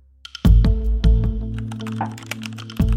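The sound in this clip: Keys clacking on a computer keyboard as someone starts writing a message: a few sharp, irregular strikes separated by short pauses, with no voices.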